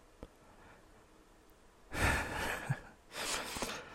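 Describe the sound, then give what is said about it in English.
A person takes two audible, breathy inhalations with no talking. A faint click comes first, then the two fairly loud breaths follow one another in the second half. “sometimes I'm going to need to take a breath because this, I'm so fucking mad.”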